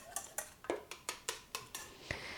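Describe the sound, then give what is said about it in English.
An egg is whisked with a whisk or fork, giving a steady, evenly paced series of light, bright clinks against the bowl, each sharp tap quickly decaying, with no voices. “Then whisk your egg a bit. You want to just sort of scramble it up a little bit using a whisk or a fork, whatever's handy.”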